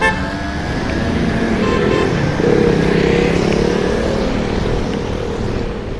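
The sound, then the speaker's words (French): A Paris traffic jam near the Seine quays gives a loud, continuous drone of idling and creeping engines, with horn toots scattered through it. “Ben là, on est en plein dans les bouchons parisiens. On n'est pas loin des quais de Seine”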